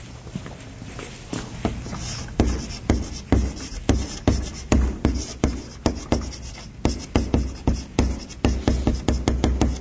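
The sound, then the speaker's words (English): Writing on a board during a lecture produces many quick scratchy strokes and sharp taps. They come in a busy, steady rhythm with no talking over them. “Okay, so I write that on the top”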